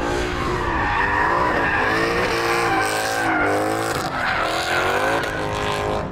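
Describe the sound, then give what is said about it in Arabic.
Tyres squeal and skid as a car drifts, a loud, continuous screech layered over roaring engine noise whose pitch wavers up and down throughout, with no voices. “درفت والله درفت لهم شوي”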